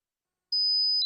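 A high-pitched electronic tone imitating ringing in the ears, as with tinnitus. After a moment of silence it starts abruptly and holds as a thin, steady whine before cutting off.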